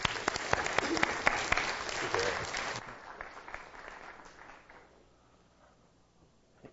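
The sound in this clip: Church audience applauding to welcome a guest speaker: dense, even clapping for about three seconds, then thinning and fading gradually into near silence.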